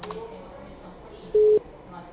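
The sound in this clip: A single short telephone keypad tone on a PABX line, a steady mid-pitched electronic beep lasting about a quarter second. It stands out loudly over faint background hiss.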